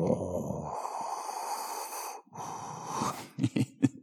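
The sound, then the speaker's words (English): A voice imitates Darth Vader's mechanical respirator breathing from Star Wars: a long, hissing, raspy breath, a brief break, another drawn-out breath, then a few short, sharp puffs at the end. “One of my friends, he can do the Darth Vader breathing.”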